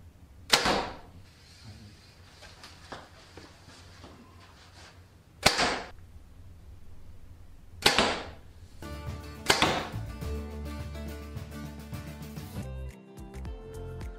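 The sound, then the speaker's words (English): A Mathews V3 compound bow fires four arrows, each a sharp, loud snap over a low, quiet background. The shots are spaced several seconds apart, and music begins with the last shot. “All right, the V3 series from Matthews, the 31 and the 28. We did both of them. Amazing shooting bows.”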